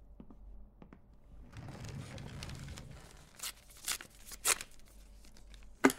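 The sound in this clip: A paper envelope being torn open: soft crinkling and rustling of paper, then a few sharp, bright ripping bursts, the last one short and loud.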